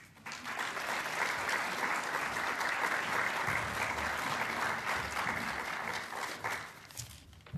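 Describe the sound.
Audience applause welcoming the director of the Museum of Australian Democracy to the stage at a talk, a dense, steady roar of many hands clapping that holds evenly for several seconds and thins out near the end.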